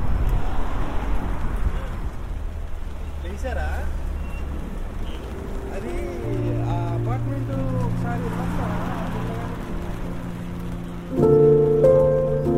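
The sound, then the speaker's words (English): Heavy rain falling on Greenwich High Road in southeast London, a dense, steady hiss throughout, with talking and some tonal sounds over it in the second half. “And the rain is really coming down now.”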